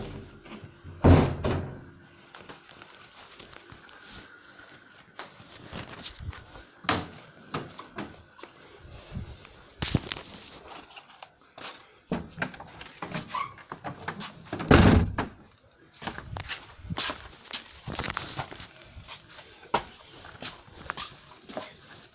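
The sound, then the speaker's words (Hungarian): A door is being closed and handled, with a long run of knocks, rattles and thuds over about twenty seconds. A few louder slams stand out among the quieter clatter. “bezárjam az ajtót? Zárható, nyugodtan.”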